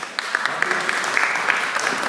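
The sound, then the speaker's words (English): Audience applause welcoming a speaker: many hands clapping at once, with sharp individual claps popping out of a steady, fairly loud patter. “round of applause for Mr. John”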